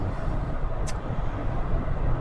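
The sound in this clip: Steady road noise from a car driving toward an exit: a constant low rumble and hiss without clear changes.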